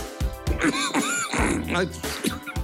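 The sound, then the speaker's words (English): A man violently clearing phlegm from his throat: many harsh, voiced hacking grunts and rasps in quick succession, loud and close, with no words spoken. “Mike Leach goes to absolute war with the phlegm in his throat”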